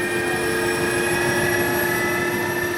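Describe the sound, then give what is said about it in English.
Steady, loud roar of a Chinook helicopter's rotors as it sets down on a soccer field. A constant rushing drone carries a high, sustained whine, with no talk throughout. “He says they are no match for the hurricane force winds the Chinook's rotors stir up.”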